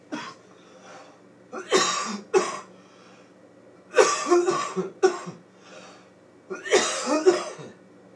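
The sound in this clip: A man in an audience coughs repeatedly, loud harsh bursts grouped in several clusters separated by short quiet pauses.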